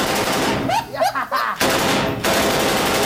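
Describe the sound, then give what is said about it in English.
A Tommy gun fires dense, rapid bursts of automatic fire, loud and harsh, broken by a couple of short pauses. “I go play the Tommy gun. Tommy gun's like that.”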